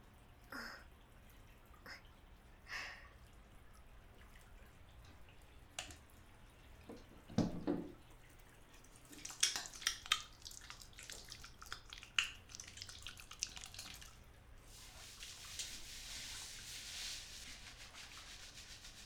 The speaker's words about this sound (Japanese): では、髪を洗っていきます。